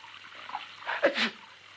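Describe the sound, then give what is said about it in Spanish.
A single sneeze from a man soaked with water in a bathtub after a can of talcum powder falls on him, a short, fairly faint burst with a sharp onset. “El Tato estornuda.”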